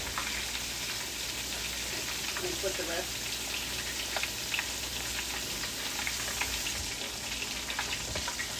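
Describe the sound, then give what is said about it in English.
Food frying in a pan gives a steady, dense sizzle with scattered sharper crackles and pops throughout, holding at an even level from start to finish. “So I'm gonna drop this one in there. I'm gonna fry three of them.”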